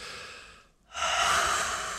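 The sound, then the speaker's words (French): Slow breathing in a calming exercise: a soft, airy breath fades into a brief pause, then a louder, sustained inhale rushes in and holds to the end. “Respire avec moi.”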